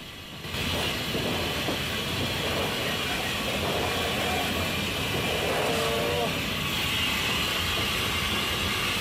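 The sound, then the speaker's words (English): The Flying Scotsman steam locomotive passes, its heavy rolling rumble starting abruptly and then holding as a loud, continuous roar for several seconds. “A steam locomotive sitting on the adjacent stretch of track, and Ryan acknowledges two men standing on top of its tender as the Flying Scotsman passes.”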